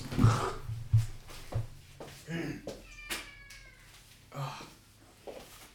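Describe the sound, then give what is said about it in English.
A male pet cat cries with several drawn-out, mid-pitched meows, spaced among soft muffled knocks and rustles, moderately loud against a quiet background. “I don't know if you hear that, but my fucking cat is crying in the background.”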